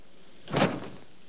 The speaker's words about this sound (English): He barges open the door